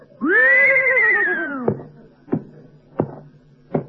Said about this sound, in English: he's a very smart horse. You know, he's been on television, in movies, everything. Who he does many tricks. Just ask him, Mr. Benny, ask him how much is 2 and 2. Okay, tell me, horsey, how much is 2 and 2?